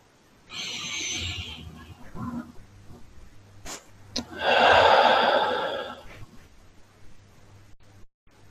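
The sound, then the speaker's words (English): Slow, deep breathing during a guided meditation: two long, soft, airy breaths with a pause between them, heard alone without talk. “And let's just begin with three deep breaths in and out.”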